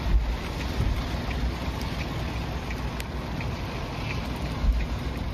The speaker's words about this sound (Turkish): Tayfun sabah saatlerinde Mikurajima adasına ulaştı. Kameralara yansıyan görüntülerde limanda dev dalgaların oluştuğu görüldü.